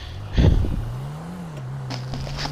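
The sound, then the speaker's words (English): A car engine drones in the video game GTA as the car drives, a steady low hum whose pitch wavers slightly, with a brief burst of clatter near the start and faint scraping later. “I'm driving North Carolina style in GTA.”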